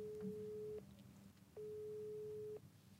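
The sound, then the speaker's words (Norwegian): Telephone ringback tone as a call is placed: two steady, evenly pitched tone bursts, each about a second long with a short gap between, over a low background hum. “Vi prøver å ringe Daniel.”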